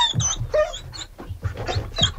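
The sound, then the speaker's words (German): Dogs at a dinner party for about forty dogs in Paris yelp and bark, with several high-pitched barks and squeals overlapping in a loud, busy stretch. “Da sind nämlich 40 Hunde, ja ist gut, aus jetzt, zum Dinner eingeladen.”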